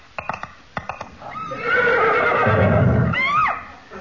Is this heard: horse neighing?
yes